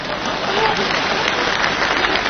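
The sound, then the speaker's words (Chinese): Audience applause at a stage comedy show, a dense and steady wash of clapping that holds an even level for the whole stretch without a break. “你以为大伙这是给我鼓掌的？ 那没错， 这是给你鼓掌的。”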